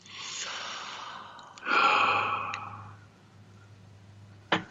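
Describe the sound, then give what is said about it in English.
A deep breath during a guided meditation: two long, airy breaths, the second louder and fuller, followed by a short click near the end. “Breathe that in and let that be right now.”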